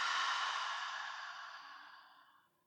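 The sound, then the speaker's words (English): A deep breath is released as a long, soft, airy exhale during a relaxation exercise, starting strong and fading gradually to silence over about three seconds. “Last one, breath in. And release.”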